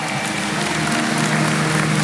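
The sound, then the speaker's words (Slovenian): Audience applause during jury point announcements at a song contest: steady, dense clapping from many hands that fills the whole clip evenly, with no talk over it. “En aplavz za to prvo etapo.”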